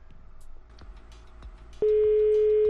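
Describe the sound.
A telephone line tone during dialing: faint background noise gives way to a steady, mid-pitched tone that switches on abruptly and holds unbroken, loud and even, to the end.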